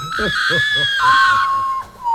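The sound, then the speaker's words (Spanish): A common potoo (urutau) call, a mournful cry like a human lament: a sustained, wailing tone that steps down in pitch across about two seconds, over a pulsing low rhythm. “O pájaro fantasma. ¡Ay, caramba! Se le conoce por su grito similar a un lamento humano.”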